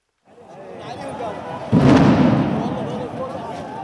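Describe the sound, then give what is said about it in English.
A single loud, deep boom from a sound bomb fired by riot police at a protest in Baghdad bursts in partway through, then slowly fades into a steady rumble of crowd noise and voices. “Riot police fired sound bombs to try to drive protesters away from the route to the Green Zone, home to government ministries and the American Embassy.”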